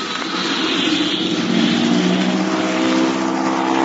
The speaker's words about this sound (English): They're going to have a mighty tough time to make a quick takeoff to clear those trees.